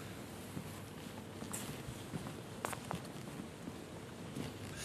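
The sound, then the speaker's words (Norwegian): Faint footsteps walking through Nidaros Cathedral, scattered soft taps and scuffs over a low steady hush. “Skal vi gå eh, litt lenger den veien? Ja, vi kan iallfall gå inn i den delen av kirka ja.”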